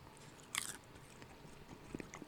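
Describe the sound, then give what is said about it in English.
Someone bites into a buttery, dill-flavored snack with one crisp crunch, then chews it faintly and softly, with a smaller crunch a little later. “Yummy. It's way more buttery than dilly. There's a hint of dill, though.”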